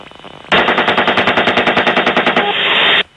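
Automatic gunfire from a helicopter crew's weapon: one loud sustained burst of many rapid, evenly spaced shots lasting over two seconds, followed by a brief steady roar before it cuts off.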